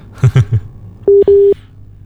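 Telephone busy tone after a call disconnects: two short, steady mid-pitched beeps sounding one after the other with a brief gap, following a few low muffled bursts.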